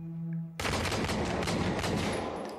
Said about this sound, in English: Shots fired.